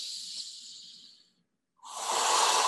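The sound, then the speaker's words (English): Deep breathing in a guided breathing exercise: a long, airy, hissing breath fades out, a short silence follows, then another strong breath starts loud and rushing. “Your deep exhalation. Taking it all in and letting it all out fearlessly, just letting it all out. And then breath again.”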